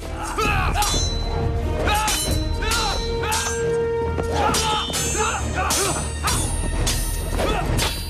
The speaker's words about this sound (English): Einan thrusts his sword up at him, and the fighting continues under the arches of the watery underground passages.